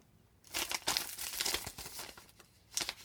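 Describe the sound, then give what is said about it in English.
Paper envelope being torn open at an awards announcement, with a burst of crinkling and ripping that runs steadily for over two seconds, then a brief final tear. “We have three envelopes here. The first we'll open is for the art winner for the 13s to 17s.”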